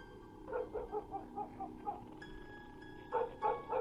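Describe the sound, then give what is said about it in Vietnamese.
Dogs barking at night: a quick run of short, faint yapping barks, then a pause and a few sharper barks again, over a steady low background hiss. “Tiếng gió, tiếng sóng vỗ bờ từ đằng xa xen lẫn vào cái tiếng chó cắn ma cứ nhấm nha nhấm nhằng”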